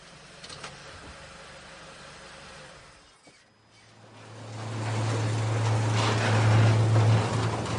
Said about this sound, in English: The police vans drive into the underground parking.